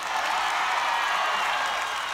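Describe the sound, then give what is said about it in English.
Audience cheering and applause from a live crowd at a touring show as the cities Oakland and San Francisco are called out; a steady, loud, dense roar of many voices and clapping holds evenly for about two seconds with no talk over it. “whenever I mention the name of that place, people always cheer.”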